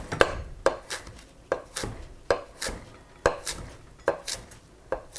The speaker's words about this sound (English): I'm just sort of balling all these leaves up gently into a single wad and doing long thin slices.